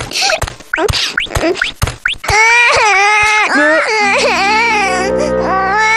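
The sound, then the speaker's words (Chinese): A child cries loudly, starting with short whimpering sobs and building into long wailing cries that waver up and down in pitch. A steady low tone joins near the end. “别哭了。”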